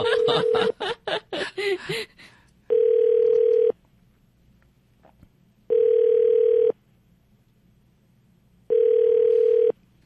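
An outgoing telephone call rings unanswered before it goes to voicemail: three steady, even ringback tones of about a second each, separated by equal pauses, after brief laughter and chatter at the start.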